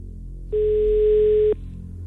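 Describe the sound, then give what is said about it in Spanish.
Telephone dial tone heard before dialling a number: one steady, clean, mid-pitched tone lasting about a second, starting and stopping abruptly over quiet background hiss, with no voices. “vamos a marcar, compañeros, por favor, el número de teléfono. Da tono, buena señal.”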